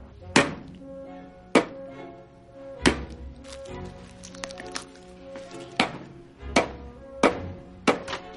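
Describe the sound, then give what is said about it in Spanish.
A woman chopping chicken with a knife in her home kitchen: many sharp, solid thunks at uneven intervals, moderately loud, with softer handling and squishy sounds between the strikes. “Después la mujer corta pollo en la cocina de su casa.”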